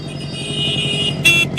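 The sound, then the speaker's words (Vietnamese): A motorcycle rides into an alley, its engine a steady droning rumble with a couple of short, bright horn toots near the end. No voices. “Ông ra xem có tiếng xe máy đi vào ngõ kia kìa.”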